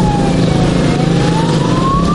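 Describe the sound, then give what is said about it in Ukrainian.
Motorcycle sirens wail over the roar of engines at a funeral procession in the village of Kalynivka: loud, continuous engine rumble beneath a siren whose pitch dips slightly and then climbs steadily. “село Калинівка проводжало в останній путь під гул двигунів і сирени мотоциклів.”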